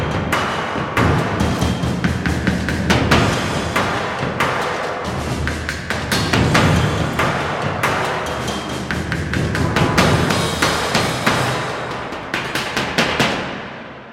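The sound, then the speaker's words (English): Acoustic trailer-style percussion: many deep, heavy drum thuds and sharper hits in a driving rhythmic pattern, loud and dense throughout before trailing off at the very end. “I'm going to use a short percussion clip that I actually wrote for the Saga Acoustic Trailer Percussion Library”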